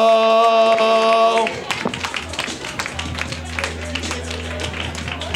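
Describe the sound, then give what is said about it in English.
Round of applause from a comedy show audience greeting a comic. A short burst of music gives way to many sharp claps that continue unevenly to the end. “Round of applause for Ryan Ergo.”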